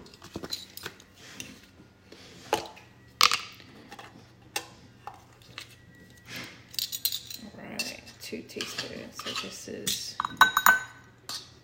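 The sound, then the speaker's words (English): Baking powder is measured with a half-teaspoon spoon into a bowl for pancakes, making several light metallic clinks and taps. Quiet talk runs underneath. “I'm using a half teaspoon measure, so I'm having to put 4 dollops in there.”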